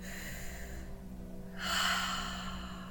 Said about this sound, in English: When you're ready, take a nice deep breath with me.